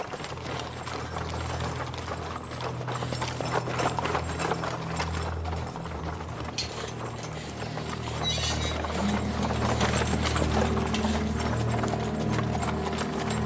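Horse hooves clip-clop steadily as a horse-drawn carriage arrives. The rhythmic clopping is blended into a dense, continuous backdrop of sustained low tones and grows slightly louder in the second half.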